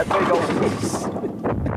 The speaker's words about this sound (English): All right, there you got blown up. Are you happy? Kaboom, kaboom, kaboom.